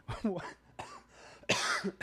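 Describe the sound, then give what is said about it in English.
A few harsh, loud coughs mixed with throat clearing from a person fighting a nagging cough. The sounds come in abrupt bursts separated by short pauses, and no other talk is heard. “I don't know what's up with this cough.”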